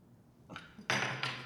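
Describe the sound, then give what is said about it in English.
Plastic non-breakable shot glasses knock together in a drinking toast: a few sharp, hollow clacks, the later ones louder, with no talk over them. “Good thing they're plastic. They are non-breakable shot glasses.”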